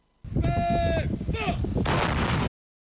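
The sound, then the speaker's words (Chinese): Artillery fire during a live-fire military drill on the Gobi: a loud burst of roaring, booming blasts lasting about two seconds, streaked with tonal whistling, then cutting off abruptly to silence. “我们按照分配不同火力的思路，构建多道火力集群，集中火力对目标实施饱和打击”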